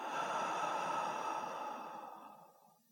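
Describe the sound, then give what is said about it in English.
One slow, deep breath out through the mouth after breathing in through the nose. It is a soft, airy rush that fades gradually into silence, with no talking. “Take a slow, deep breath in through the nose and out through the mouth.”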